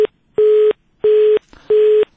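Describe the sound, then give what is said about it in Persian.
Disconnected telephone line tone after a call to Zabul province drops: loud, steady, mid-pitched beeps of equal length at an even rhythm, one clipped at the start and three full ones after, with nothing else heard. “تماس ما با همکار ما در ولایت زابل قطع شد.”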